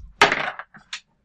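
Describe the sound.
Dice rolled on a table during a tabletop game: a sharp wooden clatter, then a few lighter taps and bounces that quickly die away, with no talk.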